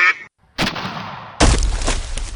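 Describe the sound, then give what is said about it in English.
Duck quacking, heard as a few harsh, loud, noisy bursts broken by a brief silence, with no talk over them. “Would you like your duck now, sir?”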